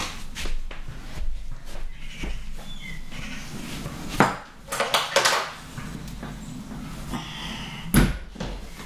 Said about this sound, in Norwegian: Unnskyld, men jeg skal bare lukke vinduet, for jeg hører noen sparke fotball.